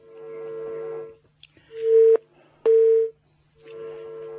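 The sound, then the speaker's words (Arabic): Two steady mid-pitched beeps of a telephone call signal on a phone-in line, each about half a second long with a short gap between, set against a fainter tonal background before and after. “في اتصال تاني جديد بالضبط.”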